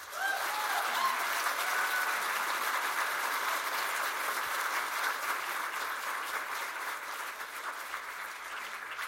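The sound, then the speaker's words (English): Audience applause at an author interview event in Canberra: dense, loud clapping that holds steady for the whole stretch and eases only slightly toward the end. “What a fabulous audience. Thank you, Canberra. I must say I've done lots of author interviews, but I haven't had whoops before.”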